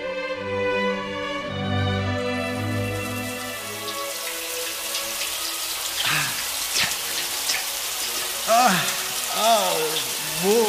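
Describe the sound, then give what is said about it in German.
Running shower water hissing in a broad, steady spray that builds up after a sustained musical tone fades out, continuing to the end. “I've got to have a shower first.”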